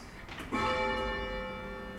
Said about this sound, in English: So if you want to come over here and have a ring on the floor, it's a down bell,